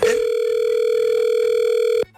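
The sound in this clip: A telephone line tone sounds during a prank call: a single steady, loud, pitched tone holds for about two seconds and then cuts off abruptly.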